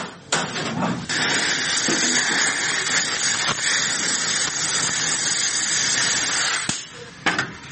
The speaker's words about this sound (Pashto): بیا ورته د ګیس باتی د نری پیتلو پیپ ورنږدې کړه او دغه پیپ ته اور بل کړ.